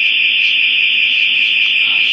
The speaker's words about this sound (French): N'en faites pas, c'est une alarme.